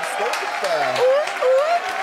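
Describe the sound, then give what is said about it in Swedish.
Audience applause, a broad, steady wash of clapping with high, gliding whoops cutting through it and swelling twice midway. “Kan man få en applåd?”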